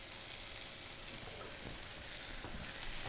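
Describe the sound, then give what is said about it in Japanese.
Food searing in a frying pan on the stove: a steady, dense sizzle hisses continuously at an even, fairly loud level, with faint crackles scattered through it. “ほらどんどんどんどん焼けてくるんで。でも鉄のフライパンの人はちょっと気をつけないと結構焼き目つきやすいんで、”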